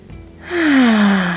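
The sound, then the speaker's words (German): One deep breath in a guided relaxation exercise: a short intake followed by a louder, voiced exhale like a sigh, with a tone that falls in pitch as it fades. “Nimm 3 tiefe Atemzüge.”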